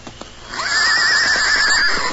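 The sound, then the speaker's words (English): A saddled horse neighs at a camp as riders prepare to leave: one loud, sustained whinny with a quavering, wavering pitch, preceded by a few faint thumps. “near the city of San Francisco, the Lone Ranger and Tonto saddled their horses and prepared to ride”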